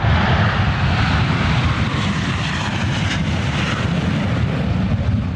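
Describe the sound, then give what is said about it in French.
An FA-18 fighter jet engine roars at Payerne airport, a loud, broad rumble mixed with hiss that holds steady without a break for the whole stretch. “Ce que vous entendez là, c'est le bruit d'un FA-18 à l'aéroport de Payerne.”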